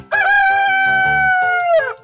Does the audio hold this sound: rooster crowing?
yes